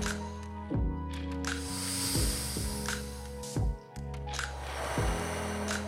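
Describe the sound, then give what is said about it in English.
Slow breaths in and out during a calm beginner breathwork exercise: soft airy hisses rise and fade a few times over sustained, gentle music tones. “As we take a slow breath in, slowly exhaling out.”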